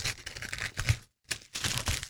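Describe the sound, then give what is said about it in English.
Wrapping is ripped off a package, producing papery tearing and crinkling. The sound comes in a few quiet bursts, broken by a brief silence. “All right, so we're about to rip this open? Yes.”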